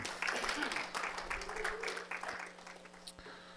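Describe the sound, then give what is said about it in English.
A church audience gives a welcome clap for a guest speaker. The handclaps are scattered and fairly faint, with a low, steady hum running beneath them. “So let's give him a welcome clap.”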